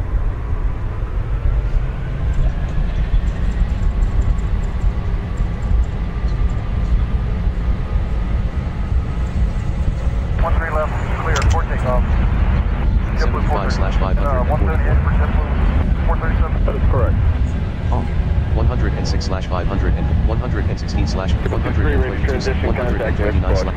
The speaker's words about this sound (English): SK-737, you are clear to take off from the runway.